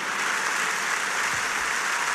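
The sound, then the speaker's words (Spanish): A standing crowd at a political rally applauds: loud, dense, sustained clapping that stays even and unbroken from start to finish. “Vuelven a ponerse de pie la inmensa mayor parte de los asistentes con este aplauso.”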